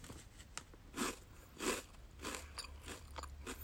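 Crisp crunching of an edamame rice cracker snack as it is bitten and chewed: two loud crackly bites followed by several smaller, quieter crunches, with no talking.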